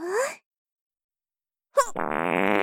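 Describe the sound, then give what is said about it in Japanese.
A rapid series of farts forms a loud, buzzing rasp of many quick pulses that fuse into a continuous rattle. It follows a short rising vocal call and a silent pause. “私の連発おならについてこれるかな。いくぞ”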